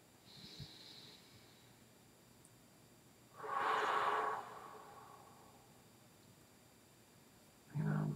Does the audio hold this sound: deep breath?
yes